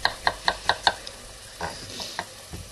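A knife chops food into thick, even pieces for a soup: five sharp, evenly spaced cuts in quick succession, followed by a few softer, irregular knocks.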